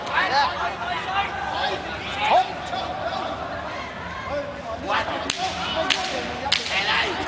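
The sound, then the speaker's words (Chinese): A wooden clapper struck for the ten-second warning at a boxing match: three sharp, loud cracks roughly half a second apart near the end, over crowd noise and commentary. “现场拍了十秒的板啊！”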